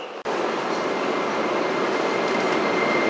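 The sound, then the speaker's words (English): A Beijing subway train approaches Shoujingmao station with a loud, steady rumble and hiss of wheels and motors. After a brief dropout at the very start, the noise holds at an even, constant level. “Please get ready for your arrival. 首经贸站到了。 We are arriving at 首经贸 station.”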